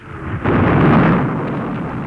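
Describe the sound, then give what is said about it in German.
Anti-aircraft guns fire near a Paris railway station in wartime: a sudden heavy boom breaks in, then swells into a loud, deep, sustained rumble that slowly fades, with no voices. “Heilige Mutter Gottes, war das eine Bombe? Keine Bombe, Madame. Das sind die Abwehrbatterien beim Bahnhof Saint-Lazare.”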